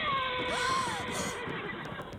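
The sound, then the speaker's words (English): A horse whinnies, one of two great black horses hitched to a carriage and churning a muddy dooryard. The loud neigh wavers and then slides downward in pitch over a dense, constant wash of background noise. “Two great black horses churned the mud of our dooryard.”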